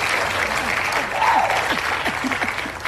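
Applause from an audience during an interview with a dignitary. Clapping is steady and continuous throughout, with a crowd murmur beneath it.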